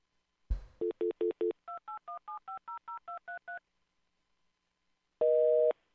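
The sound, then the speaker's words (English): A telephone number is dialled as a quick run of crisp touch-tone beeps of shifting pitch. After a short pause, a single loud, steady busy-signal tone follows. “Try this number again. Pay attention to what you're doing. Dial the number properly.”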